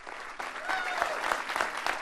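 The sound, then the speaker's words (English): Applause and cheering greet Senate Democrats entering a press conference on Capitol Hill, a short, fairly loud burst of many clapping hands with a few voices mixed into the clatter. “then they were cheered as they entered a press conference on Capitol Hill.”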